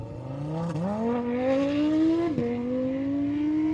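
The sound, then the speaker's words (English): A completely stock Lamborghini Huracan supercar accelerates hard at a car meet. The loud engine note climbs steadily in pitch, with two brief dips at gear changes, and continues alone without voices. “That is what a completely stock standard Lamborghini Huracan sounds like. Sounds really good.”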